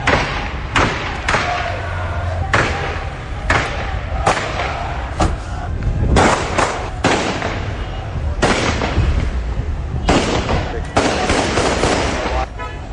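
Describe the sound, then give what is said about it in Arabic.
Random gunfire crackles through Adhamiya after Saddam Hussein's arrest: many sharp, irregular bangs and thuds, some in quick clusters, over a constant rough background. “فينقل لنا نبيل الحيدري ردود أفعال سكان منطقة العظمية بعد عملية اعتقال صدام وما صاحبها من إطلاق عيارات نارية بشكل عشوائي أفزع سكان المنطقة.”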